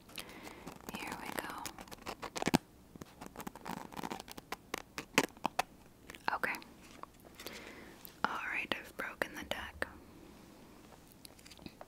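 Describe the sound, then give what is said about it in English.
Fingernails scratch along a deck of playing cards in a slow, mellow ASMR session: many soft, quick scrapes and taps in irregular bursts, interleaved with quiet whispering. “Now, I need you to just listen to the scratching and then just say when.”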